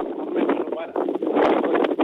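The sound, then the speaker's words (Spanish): Strong, gusty wind carried over a phone line, a muffled, band-limited rushing roar that swells and dips in uneven bursts, with a brief lull near the middle. “¿Eso que se escucha es el viento? El viento muy fuerte. Ya como una hora el viento muy fuerte, fuerte. Ya. Mucho viento.”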